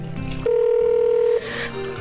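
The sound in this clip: Electronic telephone tones from a call placed on speakerphone: a steady beep held for about a second amid shorter tonal blips, followed by quieter line sounds.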